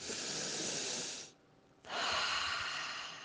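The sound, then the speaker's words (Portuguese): One slow, deep breath taken during a guided breathing exercise: a long airy inhale, a brief quiet pause, then an equally long hissing exhale, heard alone without talk. “Vamos respirar?”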